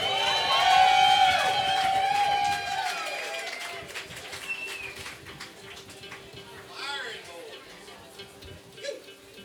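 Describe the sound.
An audience cheers, whistles and applauds for a performer. The noisy burst is loudest at the start, then eases into scattered crowd chatter with voices talking over it.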